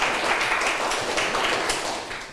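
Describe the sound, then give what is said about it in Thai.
Students in a classroom clap for themselves after a lesson activity, a fairly loud, uneven patter of many hands with some sharper claps and taps, fading slightly toward the end. “เก่งมากปรบมือให้ตัวเองหน่อยค่ะ”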